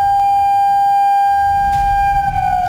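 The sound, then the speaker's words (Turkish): A civil defense siren developed by AFAD and Aselsan sounds a steady emergency tone during the first province-wide test in Çanakkale, Turkey. It holds one loud, unwavering pitch throughout over a low background rumble. “İl genelindeki sirenler aynı anda acil durum tonunda çaldı.”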